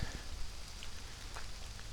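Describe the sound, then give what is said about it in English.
Rain falls in a walnut corridor as a faint, steady hiss, with a few scattered drips ticking lightly on top. “I got water dripping all over me. My vision is obscured due to all the raindrops on my glasses.”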